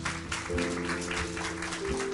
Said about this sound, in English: Can we give them a round of applause right now?